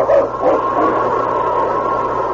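A dog barking outside a barracks: a couple of short, sharp barks right at the start, followed by a steady low hum of background noise.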